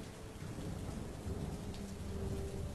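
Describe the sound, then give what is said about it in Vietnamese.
Torrential rain pours down near a river and a small shrine during a long downpour. It makes a dense, steady hiss with a low thunder-like rumble beneath, and no voices. “Nhưng cơn mưa quái ác vẫn không ngừng buông tha.”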